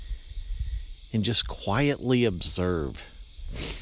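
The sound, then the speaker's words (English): Insects chirping outdoors in the early morning, a constant thin, high trilling that carries on under a person talking quietly. “It's quiet in that almost everything is still asleep, except these insects. They never sleep.”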